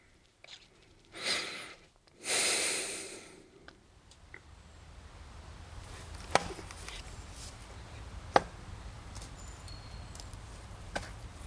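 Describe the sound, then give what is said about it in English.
Wet wood being chopped, with a few sharp strikes standing out over a steady low rumble, preceded by two broad rushing swishes. “This wood is wet, so it's not so easy to chop. But you know, after a while, it gives in.”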